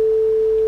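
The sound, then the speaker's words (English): A pure sine tone plays the fundamental, or first harmonic, as a brief, steady, unwavering single pitch that is clean and fairly loud from start to end. “that first trace is the fundamental. Yeah, that's also known as the first harmonic, and that sounds like this.”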